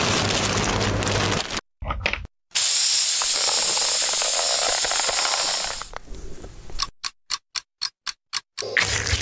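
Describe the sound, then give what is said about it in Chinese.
A vacuum sealer draws air from a bag of meat rubbed with garlic powder, coriander seed powder and smoked paprika: a hissing rush, brief gaps, then a steady high whine for several seconds that fades, followed by a run of short rhythmic bursts. “然后这时候我们需要抽真空。”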